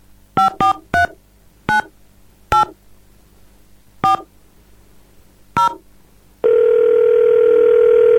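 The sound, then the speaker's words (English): Telephone call being dialled: seven short two-tone keypad beeps at an uneven pace, then a loud steady line tone that holds to the end, with no voices. “Let's give her a call.”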